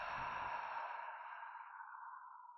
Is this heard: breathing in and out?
yes